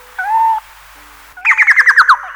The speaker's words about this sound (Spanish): historia natural de algunas aves que habitan nuestro territorio. El chucao.